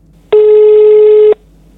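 Telephone ringing with a single loud, steady electronic tone at one fixed pitch, lasting about a second before cutting off, heard alone.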